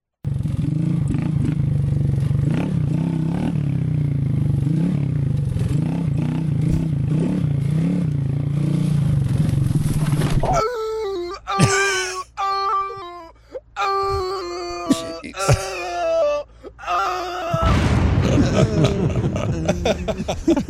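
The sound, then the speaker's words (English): An auto-tuned remix of a man falling off his dirt bike on trail riding: a dense, continuous droning wail first, then choppy pitch-corrected tones and clatter, ending in another thick burst of sound. “This man's embarrassing moment of him falling off his dirt bike while riding the trails, look fun, has been auto-tuned.”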